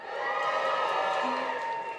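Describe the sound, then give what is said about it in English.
An audience in Manchester cheers and whoops, a sustained swell of many voices that stays fairly steady and moderately loud across the whole moment. “They cheered that. Now, they cheered that because we're in Manchester.”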